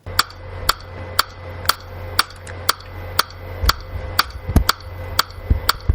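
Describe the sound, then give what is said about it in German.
Metronome clicks from Samplitude recording software: a steady, evenly spaced train of crisp ticks at roughly two per second, sounding alone throughout. “Man kann in Samplitude auch ein Metronom aktivieren. Also das Metronom, das so klingt.”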